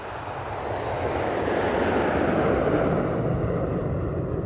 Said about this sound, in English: United 2701, clear for takeoff, 10 left, Delta Delta, right turn, 120.